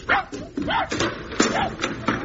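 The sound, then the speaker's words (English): A dog being taken outside by a platoon to follow a laid scent gives short barks and yips, several arching, whine-like calls spaced at an uneven rhythm, fairly faint. “Yeah, he's an awfully nice dog.”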